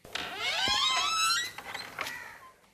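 A house door is opened, letting out a long, high, wavering creak from the hinges, followed by a few shorter, quieter squeaks.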